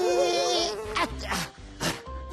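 A fly buzzes in a wavering, droning hum that wobbles in pitch for under a second, then gives way to a few brief, softer bursts of sound.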